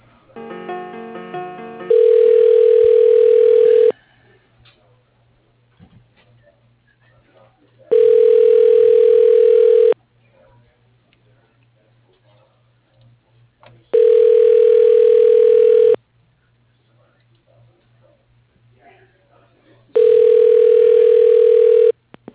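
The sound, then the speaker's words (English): Ringback tone on a phone line while a call is transferred to voicemail: four steady two-second tones separated by gaps of about four seconds, after a short stretch of other sound at the start, over a constant low hum. “I could transfer it to his voicemail. Hold on.”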